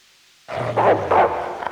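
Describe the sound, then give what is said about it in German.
Dogs bark and growl in a hall, giving a rough, rumbling din with a couple of louder barking bursts that rise above a continuous noisy swell. “Drunten in der Halle wimmelt von Hunden, die sie nicht bändigen und nicht vertreiben lassen.”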